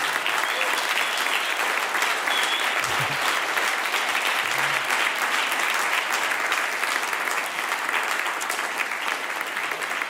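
Audience applause welcomes guests at a church service, with the audience standing. Dense, steady clapping holds at an even level for the full ten seconds, with no talk over it.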